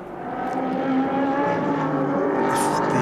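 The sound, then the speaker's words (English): Race car engine crossing the line during a Le Mans Cup sports car race at the Red Bull Ring, a steady, moderately loud droning tone with buzzing harmonics that holds evenly throughout. “Joe Osborne there going across the line, still in pursuit of the number 95 Ferrari.”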